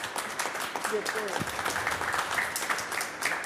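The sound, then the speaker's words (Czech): Applause from an audience at an event honouring a gliding medal winner, a dense, steady patter of clapping hands sustained throughout, with a voice briefly heard through it. “já myslím, že to si zaslouží potlesk”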